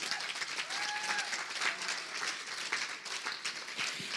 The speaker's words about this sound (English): Let's give Debbie a hand.